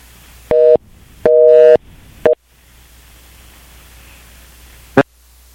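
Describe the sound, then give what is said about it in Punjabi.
Busy tone after a dropped phone call: two long beeps and a clipped third, then low line hiss and a single sharp click near the end. “ਸੁਖਨੈਪ ਉਹਨਾਂ ਦੀ ਕਾਲ drop ਹੋ ਗਈ ਆ”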